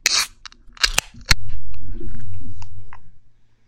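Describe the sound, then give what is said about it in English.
A can of beer cracks open: a few sharp clicks lead to a crisp pop, followed by a sustained rushing sound that slowly fades. “There are a few sounds better on the planet than a can of beer being cracked open.”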